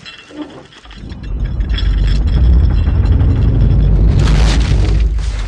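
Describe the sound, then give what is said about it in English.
Explosions from the dream city scene in the film Inception, with the city bursting into puffs of debris: a quiet start gives way to a loud, continuous rumbling roar laced with clinking, mechanical rattles and crumbling noise. “That's my favorite scene in Inception, because it ends with the dream city exploding in puffs of debris and the anticipation of magic to come.”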